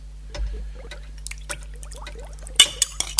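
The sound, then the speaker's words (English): A jar of Dolmio tomato pasta sauce is poured into a pan, making soft, thick wet plops and a few sharper splats toward the end, quiet and sparse. “Next, we add 1 jar of the dolmio pasty sauce.”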